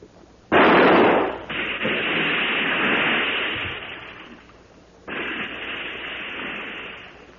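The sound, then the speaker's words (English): A gunshot in a 1935 radio drama, fired at a creature in a stream: two loud blasts, each followed by a long, rumbling roar that slowly fades. “Well, I'll have to shoot. Keep the light steady.”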